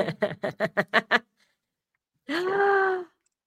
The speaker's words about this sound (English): Big yawn.